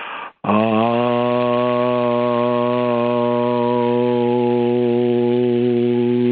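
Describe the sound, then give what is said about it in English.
A voice tones the sound Aun, like Om but closing on an N, in one long sustained note. It starts after a brief gap and holds a steady pitch with strong, rich harmonics for about six seconds. “And if you just tone that first sound, Aun, kind of like Om, but with an N at the M, at the end, and it sounds like this.”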